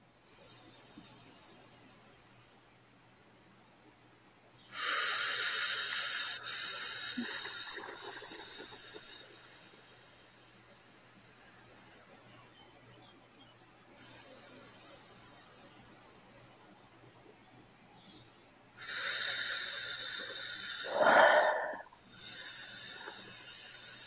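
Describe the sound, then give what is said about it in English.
Slow, deep breathing during a guided relaxation exercise: a few long, airy inhales and exhales that swell into soft hissing and then fade, separated by quiet pauses. “And really slow your breath down.”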